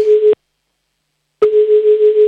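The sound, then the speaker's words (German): Telephone line tone on a call going through to Vienna: a steady, fairly loud low beep, a pause of about a second, then the same tone again, with no voices. “So, nächster Anruf ist dran, der geht nach Wien.”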